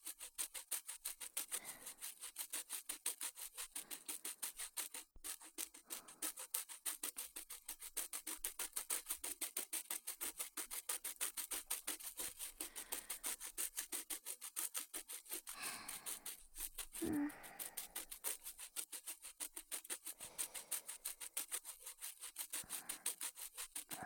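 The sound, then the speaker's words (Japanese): A toothbrush scrubbing someone else's teeth: fast, steady back-and-forth brushing strokes form a dense, rasping scrub that runs continuously for the whole stretch, faint and without talk. “誰かの歯を磨いてやるのも楽しいものだな。”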